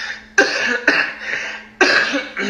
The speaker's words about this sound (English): excuse me, I've been sick, so I have this cough.